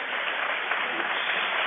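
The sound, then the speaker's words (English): A crowd applauds at a basketball game with dense, even clapping that holds steady and loud for the whole moment, without voices standing out. “He's in it to play as the crowd applauds him.”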